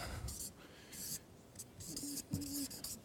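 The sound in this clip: A pen or marker scratches quietly as something is written down, in a few short stroke bursts of soft scraping, with speech alongside.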